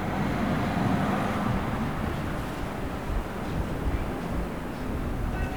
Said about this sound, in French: J'entends un bus.